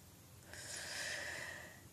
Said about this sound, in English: Inhaling deeply because you smell so nice.